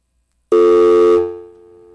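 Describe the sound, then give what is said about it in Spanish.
Telephone tone right after a dropped phone call: a loud, steady electronic tone that starts abruptly, holds with a brief layer of hiss, then sinks to a quieter level and continues to the end. “Bueno, se ha caído la llamada.”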